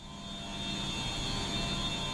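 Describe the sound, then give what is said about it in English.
Steady high-pitched hum from pumps and boilers in the basement of a federal courthouse in Boston: a continuous, even drone with a thin constant whine above a broad low rumble, no voices. “A high-pitched hum comes from pumps and boilers in the basement of the Moakley Federal Courthouse in Boston's Innovation District.”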